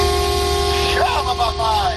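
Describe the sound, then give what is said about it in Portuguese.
A truck horn blasting: a steady, loud, multi-toned honk held for the full two seconds, with some wavering sounds layered over it. “Essa buzina humilhou a minha aqui.”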